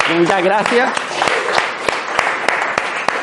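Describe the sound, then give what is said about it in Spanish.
Audience applause for a participant after a demonstration: a broad, steady patter with several sharp individual claps standing out, following a brief voice at the start. “Bueno, un aplauso para ella”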